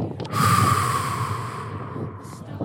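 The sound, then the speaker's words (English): Slightly labored breathing during a long trek of several miles: one drawn-out, forceful breath with a noisy rasping hiss, fairly loud and heard alone. “My breathing becomes regular, yet slightly labored.”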